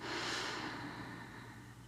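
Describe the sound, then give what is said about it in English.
A deep breath drawn and released, in through the nose and out through the mouth, as a soft, steady airy rush that holds fairly even loudness for its whole length. “taking a few cleansing breaths in through the nose and out through the mouth”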